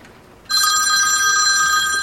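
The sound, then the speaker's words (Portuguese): A telephone ringing for an incoming call: after a near-silent start, a bright electronic ring cuts in sharply about half a second in and holds steadily to the end, with no voices. “E vamos para a nossa última ligação de hoje.”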